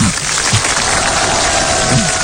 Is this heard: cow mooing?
no